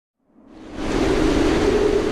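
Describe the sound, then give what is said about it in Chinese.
Howling typhoon wind with heavy rain, a broad hissing roar that swells in over the first second, then holds steady and loud to the end. “有一天，台风来了，在狂风的呼啸中夹杂着暴雨。”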